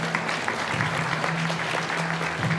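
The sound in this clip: Audience applause for a pianist, a steady, dense wash of clapping that runs evenly through the whole stretch with no break.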